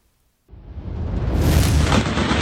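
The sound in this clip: Explosions from video of a military bombing of a Syrian border town: a heavy booming roar bursts in suddenly, then swells into a loud, sustained rumble that keeps building to the end.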